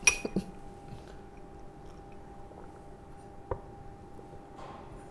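Glass clinking as a guest is given water and drinks: a few light, bright clinks at the start, then one sharp clink later, faint over a steady low hum.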